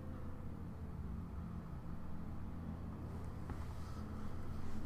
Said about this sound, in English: sounds like the trash truck's coming around a second time.